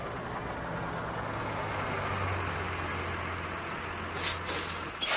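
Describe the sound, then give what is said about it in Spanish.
A bus drives through a cemetery at night with its lights off, giving a steady low engine drone and road rumble throughout, with a brief rattle near the end. “Se apagan las luces del autobús mientras circula por el cementerio.”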